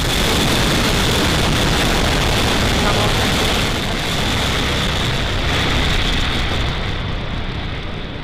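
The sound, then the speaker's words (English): A SpaceX Falcon 9 rocket roars at liftoff, making a loud, continuous, broad rumble that holds steady and loses some of its hiss near the end. “And liftoff, Falcon 9, Falcon 4 10. Vehicle's pitching out right.”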